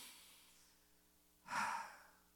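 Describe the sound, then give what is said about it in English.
One slow, deep breath drawn audibly, a soft airy rush that swells about two-thirds of the way in and then eases off, alone over a faint low hum. “Slow it down. Let's take another deep breath.”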